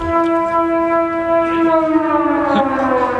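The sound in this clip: A civil defence siren sounds the all-clear: one loud, continuous, harmonic-rich tone held at a nearly level pitch throughout, with no rising or falling wail.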